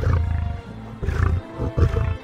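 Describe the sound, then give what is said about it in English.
Deep roaring of an 800-pound male lion with a big bushy mane, pacing in a cage: loud, low, rumbling grunts rolling in several surging pulses with no break. “It's a male lion with a big bushy mane. It's 800 pounds, and it's pacing back and forth.”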